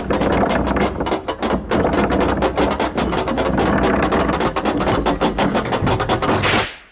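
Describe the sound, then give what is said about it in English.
A prize wheel spins with a dense, loud run of ratcheting clicks, like a pawl snapping rapidly over pegs. The rattle is continuous and fast for several seconds before it stops. “Well, let's spin the Wheel of Pain.”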